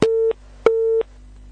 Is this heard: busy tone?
yes